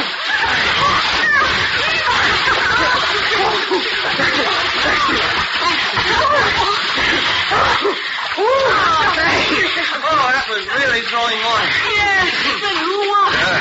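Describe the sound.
Water splashes and sloshes steadily as several swimmers race across a pool, a dense, continuous churn with animated voices talking and calling over it throughout.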